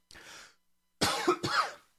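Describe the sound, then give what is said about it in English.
Coughing: a softer, breathy cough is followed after a pause by two sharper, louder coughs in quick succession. “And I'm going to have to edit out that cough.”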